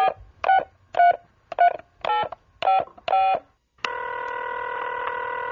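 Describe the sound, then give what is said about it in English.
A telephone number dialed on a touch-tone keypad to a turkey-cooking help hotline. Seven separate, evenly spaced beeps play alone, followed by a steady, continuous line tone. “Let's dial that line up.”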